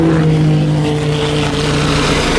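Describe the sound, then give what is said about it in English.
A French police helicopter flies over an endurance motor race, producing a loud, continuous droning roar with a steady low buzzing hum underneath that holds throughout without breaks or voices. “the gendarme fly over in their helicopter.”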